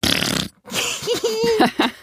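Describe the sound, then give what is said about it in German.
Fart sounds from a fart generator: a noisy, sputtering blast, a brief silence, then a longer, buzzy, wavering squeak that rises and stutters to a close. “Ah, dein Furzgenerator aus der Folge übers Pupsen.”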